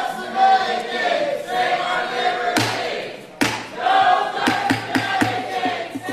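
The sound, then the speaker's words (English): Protesters chant inside and outside a Senate Finance Committee hearing room as a health-care bill hearing opens. The crowd's voices rise and fall under a few sharp, loud thuds that cut in during the second half. “And as you hear, immediately protesters inside and outside the hearing room began chanting.”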